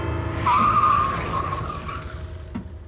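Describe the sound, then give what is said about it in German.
A car brakes hard and its tires skid, giving a thin, high squeal for about a second over a steady low engine rumble, which then fades. “Automatisch trat Belloir auf die Bremse.”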